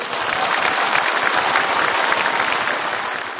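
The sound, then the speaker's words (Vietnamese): Loud, dense applause comes from an audience at a Buddhist dharma talk. Many hands clap together in a steady, continuous roar that lasts the whole time with no voices over it. “Cho tràng vỗ tay thật lớn.”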